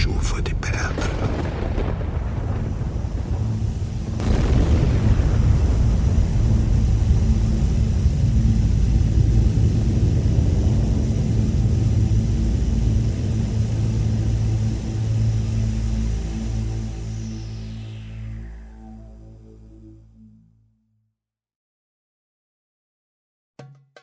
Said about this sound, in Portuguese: E houve relâmpagos, estrondos, trovões, um terremoto e uma forte